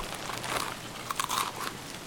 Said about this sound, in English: I can hear you eating, too. Yeah, I hear you eating, too.